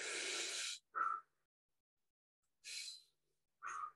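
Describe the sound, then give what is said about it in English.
Person breathing during an anatomy demonstration with a plastic model of the body: four airy breath bursts, a long exhale and a short sharp one, then two more after a pause. “For instance, if I breathe,”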